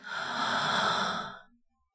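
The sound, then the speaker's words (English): A single long, airy breath during a guided relaxation exercise, loud and steady for about a second before fading away into silence. “Breathe in”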